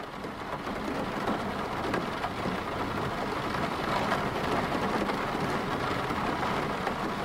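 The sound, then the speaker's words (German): Steady rain falling, a dense, even hiss of countless drops that holds at a constant level throughout without a break, and no voices. “Jeder kennt Regen. Alle Menschen haben mal die Erfahrung gemacht, Regen zu hören.”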